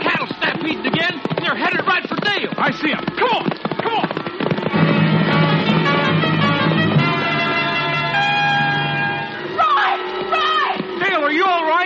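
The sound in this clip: Gunshots fired to start a cattle stampede crack out as many sharp reports in quick, irregular succession over a dense, busy background of other sound.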